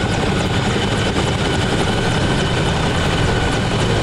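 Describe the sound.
A helicopter flying in a video game gives a loud, steady roar of rotor and engine that stays even and unbroken from start to end, with no voices over it.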